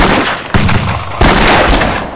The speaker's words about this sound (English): One of Little Wolf's band foolishly exposed his upper torso, and a half dozen rifles fired from the wagons.